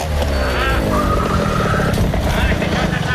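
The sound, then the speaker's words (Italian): A car arrives, its engine rumbling steadily and loud throughout, with voices talking over it. “Adesso aspetta, fammi vedere com'è, se arriva già incavolato. Da come guida? Vediamo come scende.”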